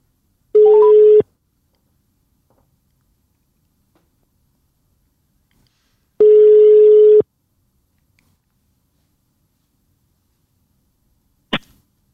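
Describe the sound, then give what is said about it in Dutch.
Ringback tones on an outgoing telephone call: two steady, buzzy tones spaced several seconds apart, with silence between them, then a short sharp click near the end. “Ja, we bellen hem.”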